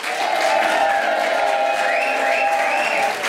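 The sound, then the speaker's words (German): Sustained applause and cheering from an audience greeting a guest singer at an event on the Feldbergturm in the Black Forest: a steady, dense wash of clapping with cheering voices rising over it throughout. “Bitte begrüßt mit einem Riesenapplaus Max Mutzke.”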